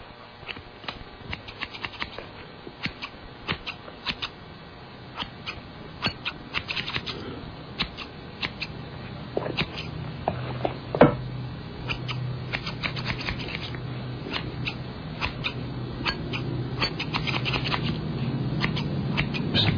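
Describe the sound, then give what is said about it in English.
Scissors cutting in a sound effect, many crisp metallic snips in an uneven, steady run that continues for the whole stretch, with no talking over it. “I'll just play this scissor cutting sound effect to amuse us in the meantime.”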